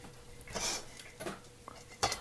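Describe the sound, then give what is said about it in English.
An egg cracked against a bowl and dropped in, with more eggs going in as they're mixed with buttermilk for a batter; a few light, separate clinks and taps stand alone over a faint steady hum. “egg number 2 is also being cracked and going into the bowl”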